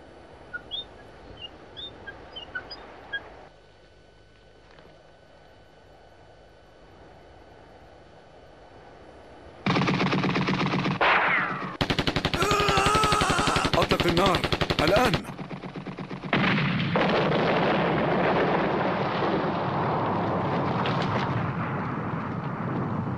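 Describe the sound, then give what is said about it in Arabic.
Gunfire aimed at a mountain above a position: a quiet stretch with faint tones gives way to loud, sustained machine-gun bursts that continue to the end. “أطلق النار. أطلق على الجبل في أعلى الموقع هناك.”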